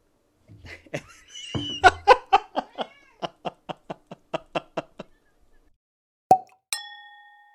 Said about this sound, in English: And that was my cat, Mab, signing off this latest bonus episode of Bottled Up.